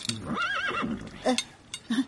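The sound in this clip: A horse carrying a rider neighs in a wavering, high whinny, followed by a few shorter, lower bursts of sound.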